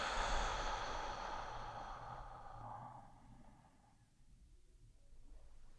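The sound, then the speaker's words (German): A deep, slow breath taken during a guided relaxation exercise: a soft, airy rush that fades gradually over about four seconds into near silence, with faint breath noise returning at the end. “Wir atmen einmal tief ein, lang und tief durch die Nase. Und noch länger und tiefer durch den Mund aus.”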